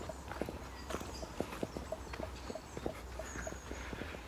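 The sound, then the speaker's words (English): Footsteps of a person walking outdoors while geocaching: many crisp steps in an even, steady rhythm, fairly loud and alone, with no talk. “So I'm going to walk on a little bit further.”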